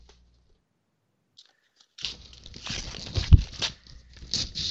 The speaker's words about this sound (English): So we're going to do rip, and we're going to fucking rip up his fucking junk mail